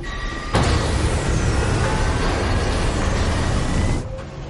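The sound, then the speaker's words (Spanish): Hoists and overhead cranes starting up in an industrial hall: a dense mechanical roar kicks in abruptly, holds steady with faint whining tones, then drops away shortly before the end. “Los polipastos y puentes grúa de la nave se ponen en marcha.”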